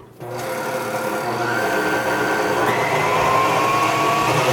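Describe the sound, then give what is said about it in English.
A stand mixer beating sugar into a mixture starts abruptly with a loud, continuous motor whine, its tone stepping up in pitch partway through and running steadily to the end. “we will be back after we turn on this stand mixer, and you will not have to listen to it.”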